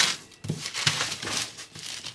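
Baking paper folded around fish for cooking en papillote: several short, crisp crinkling and rustling bursts in quick succession, fairly faint, with no talking.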